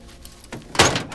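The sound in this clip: A truck cab door kicked open from inside: a dull thump, then a louder, sharper burst of noise as the door swings open.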